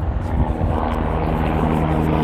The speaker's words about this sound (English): This is helicopter number 3. A lot of activity today.